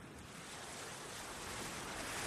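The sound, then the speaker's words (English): Waves wash against a houseboat tied to a dock on the Hudson River: a steady, broad rushing surge that swells slightly louder toward the end, with no voices. “you might hear those waves crashing behind me, and that's because, where am I right now? I'm on the roof of a houseboat,”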